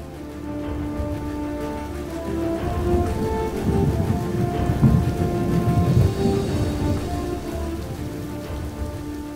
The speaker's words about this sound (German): Als ein schweres Gewitter einsetzte, brachen sie den Kampf ab.